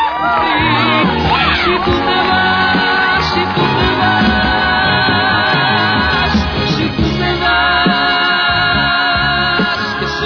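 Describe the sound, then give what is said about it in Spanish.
An audience at a special concert show cheers loudly, a continuous roar of yells, shouts and whoops that stays at a high, steady level throughout. “Un aplauso para ustedes, para usted, maestro.”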